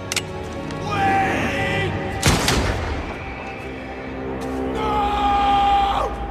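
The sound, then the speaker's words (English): A single sharp gunshot cracks midway through a film scene in which a British officer shoots down a young son. It bursts over sustained musical tones, with raised voices around it. “the sadistic British officer just shoots him down in cold blood”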